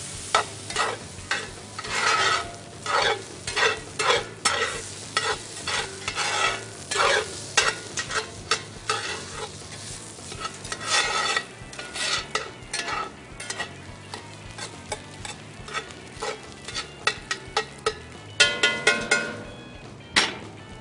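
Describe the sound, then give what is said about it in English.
Egg is scrambled and rice stirred in a frying pan: a spatula clacks and scrapes against the pan many times in an irregular rhythm over a quiet sizzle. “All right, start scrambling your egg. Let's get the rice in there.”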